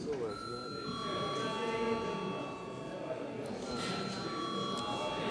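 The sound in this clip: A parliamentary session bell rings as a steady electronic buzzing tone, held through the whole clip over a constant murmur of voices in the chamber.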